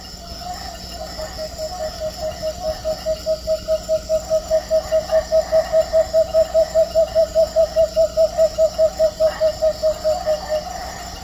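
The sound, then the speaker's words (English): A tawny-bellied screech owl calls in a long, rapid trill of many low hooting pulses at an even pitch and pace. The call swells in loudness over the first few seconds, holds steady, then stops abruptly over a faint background drone. “Tawny-bellied screech owl.”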